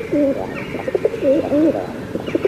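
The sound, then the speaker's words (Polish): Pigeons cooing, soft throaty low-pitched phrases repeating in short rolling bursts, with a few brief chirps and flutters mixed in. “nadmiar tych gołębi to jest zagrożenie trochę też epidemiologiczne. Wiadomo, że nie wiadomo, co te ptaszki sobie wcinają.”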